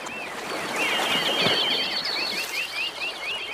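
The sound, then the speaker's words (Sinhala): Bird calls, given as a black crow cawing, sound as a long run of many short, high, chirping calls repeated in quick succession over a steady, hissy background. “ඔහේ හිටු කළු කපුටා. Show show! ඔන්න පස්සෙන් තවත් කපුටෙක් ඉගිලෙනවා.”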